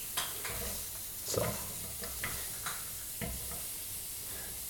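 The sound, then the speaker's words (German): Bell peppers and onions frying in a hot grill pan, a faint steady sizzle and hiss with a few soft scraping knocks as the vegetables are moved around. “Meine Grillpfanne ist jetzt erhitzt. Und jetzt geben wir peu à peu die Sachen rein, die am längsten brauchen. Ich fange an mit der Paprika und mit den Zwiebeln.”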